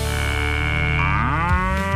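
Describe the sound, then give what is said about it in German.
A cow gives one long, loud, droning moo that lasts the whole two seconds, its tone lifting partway through. “Das war übrigens Elsa, eine Kuh.”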